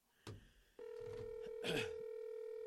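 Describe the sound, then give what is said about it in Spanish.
A telephone signals an incoming call with a brief click followed by a steady, faint electronic tone that holds for a couple of seconds with a slight swell near the end. “A ver, déjeme ver que aquí llegó otra llamada.”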